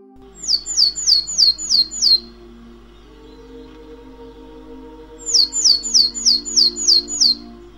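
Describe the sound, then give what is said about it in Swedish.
Tit bird calls sound in two bursts of rapid, high, repeated chirps, each burst a quick run of about seven notes, separated by a quiet pause over a low steady hum. “med hjälp av sina läten kan titor informera sin position, var det befinner sig, för en annan fågel.”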